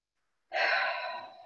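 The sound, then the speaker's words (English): A single deep breath during a guided relaxation exercise: after a short silence comes one soft, airy exhale that lasts about a second and gently fades, with no speech. “So I invite you to take a deep breath.”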